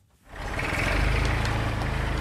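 A diesel excavator loads crushed mineral concrete from a large heap into a trailer at a construction site in front of a new building. Its broad, rumbling engine drone swells up after a quiet start and then stays loud and steady.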